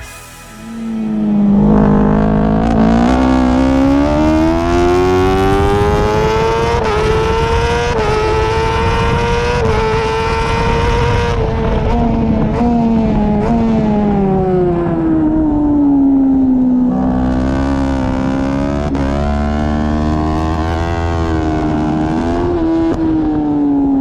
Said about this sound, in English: with the pure sound of a BMW factory superbike going through the gears, for no other reason than it sounds incredible, and it's a great way to introduce today's guest. But first, let's just enjoy hearing a few corners of onboard action from the Lausitz Ring.